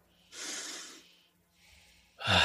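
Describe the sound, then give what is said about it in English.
A deep breath during a guided relaxation exercise: a long airy inhale, then a softer, quieter breathy stretch, then a loud, forceful rush of air at the end, with no talking. “Deep breath.”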